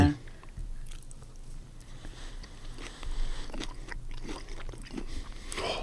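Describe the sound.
A person chewing food, with many moist, crunchy bites and mouth sounds repeating steadily throughout at a moderate level.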